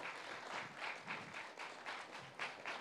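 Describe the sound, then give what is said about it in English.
Faint audience applause at a church gathering, a soft, continuous clatter of many hands with gentle rhythmic swells, heard alone without talk. “Can you guys give a round of applause”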